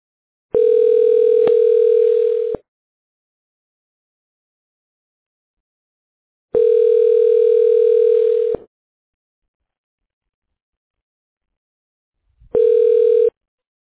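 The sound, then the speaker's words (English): A telephone call connection tone sounds three times as steady, evenly pitched bursts of about two seconds each, separated by longer silences. The third burst is slightly shorter, and there is no talk. “state your name after the tone, and Google Voice will try to connect you.”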